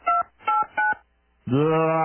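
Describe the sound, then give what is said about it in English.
Telephone keypad dialing tones: three short, evenly spaced beeps, then a brief pause and a longer sustained tone. The tones are clear and loud, with no talk over them. “No, I think I need to just dial it over here.”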